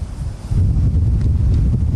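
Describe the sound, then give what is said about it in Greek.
The northwest maistros wind blows outdoors in a wildfire-hit area as a constant low, rumbling buffeting roar that swells louder after the first half second and stays heavy. “φαίνεται ότι ο άνεμος έχει γυρίσει, είναι μαΐστρος στην περιοχή”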